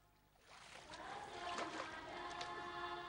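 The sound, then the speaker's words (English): Water splashing in the ocean around people drifting in it, a soft surge of sloshing that swells in after a brief quiet moment and keeps washing on at a low level. “Water splashes in her face as they drift in the ocean.”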